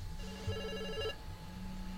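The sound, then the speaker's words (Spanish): A telephone ringing for a listener call-in to a radio news show: one short electronic ring of about a second, with steady stacked mid-pitched tones, followed by a low hum. “La llamada telefónica.”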